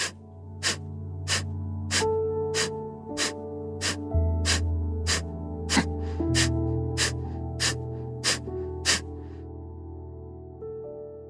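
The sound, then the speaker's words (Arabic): Forceful breathing exercise with the stomach pushed inward on each breath out: many short, sharp breath bursts come at an even, pulse-like rhythm over soft sustained music. “مع كل زفير عم ناخده عم ندفع بالمعدة لجوا زي النبض. خلينا نبدأ، شهيق وزفير.”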